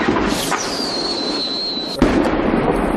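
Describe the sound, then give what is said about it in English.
Artillery shelling at the front line in the Avdiivka industrial zone, Ukraine: a high, thin whistle holds and slightly falls for over a second, then one sudden loud blast follows, with rough rumbling noise after it. “Avdiivka industrial zone suffers from constant shellings. Russian-backed separatist forces do not spend a single hour without new shootings.”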